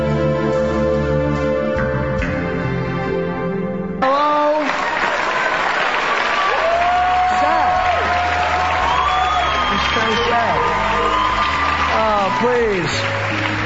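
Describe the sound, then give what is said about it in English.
Audience applause at a live show, rising sharply after about four seconds into loud, sustained clapping mixed with cheering and scattered shouts that continue to the end. “Please, you're applauding his pain.”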